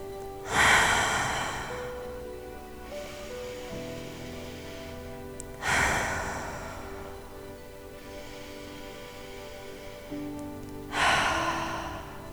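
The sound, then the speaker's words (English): Deep cleansing breaths during a guided goal meditation: three slow cycles, each a sharp, loud inhale trailing into a longer, softer exhale, over soft sustained tones. “We'll start this practice with some deep cleansing breaths.”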